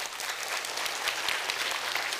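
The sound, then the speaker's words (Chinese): A church audience applauds its fellowship mentors, Sunday school co-workers and library ministry volunteers. The clapping is dense and steady and sustained at an even, fairly loud level throughout. “你起立给我们看看好吗？我们一起的鼓掌，多谢你。”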